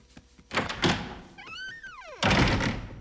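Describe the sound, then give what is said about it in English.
A door slammed shut with a heavy thud, preceded by a couple of bumps and a short falling tonal cry. “He slams the door, leaving them inside.”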